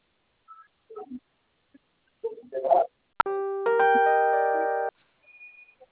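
A telephone keypad tone for pressing zero after an automated phone prompt: a brief click, then a steady, bright electronic beep holding for about a second and a half, with faint scattered sounds before and after.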